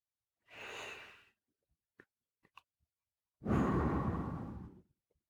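Slow breathing: one soft, airy inhale, then a few small clicks, then a longer and louder exhale. No voices are heard.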